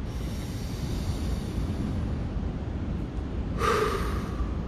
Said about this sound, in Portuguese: Respira fundo durante um minuto. Puxa o ar com força.